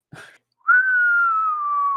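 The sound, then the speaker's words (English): Loud whistling from a person who whistles for a deaf dog. A short noisy burst comes first, then one long, steady whistled tone that sinks slowly in pitch until the end. “I'll just like turn down that audio bit because I forget I whistle loud because my dog's deaf and can only hear whistles.”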